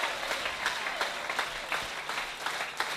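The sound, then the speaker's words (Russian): A church audience applauds, and the many hands clapping swell and ease in small surges while staying fairly soft overall. “Let's give the Lord a hand. Давайте воздадим Богу аплодисменты.”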